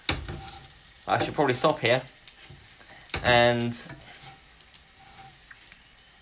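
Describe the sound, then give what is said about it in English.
Food frying in a pan, giving a steady, soft sizzling hiss that carries on throughout while a person speaks briefly over it. “Now, I'm not sure how much you can hear the pan, oh, crikey, starting to cook in the background.”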